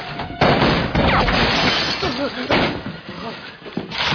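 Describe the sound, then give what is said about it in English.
Gunshots are fired at a person: a few loud, sharp bursts break through a dense, noisy scene while voices talk. “Why are they shooting at me?”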